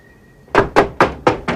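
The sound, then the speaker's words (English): Knocking on a door: five firm, evenly spaced knocks with sharp attacks, loud and alone after a short quiet lead-in. “Crutchy knocks on Snyder's door and goes in.”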